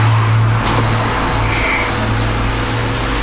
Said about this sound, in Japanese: これ、うん、クレーン、クレーン、レッカー車、レッカーよ